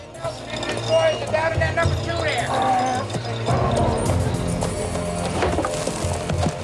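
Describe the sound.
Horses ridden through a valley past a mine, their hoofbeats clip-clopping in a steady rhythm beneath a speaking voice and other tonal sounds.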